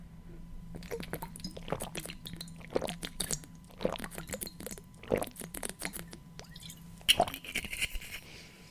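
Someone drinks with many soft, wet gulping and swallowing squishes in an uneven rhythm over a faint low hum, fairly quiet throughout.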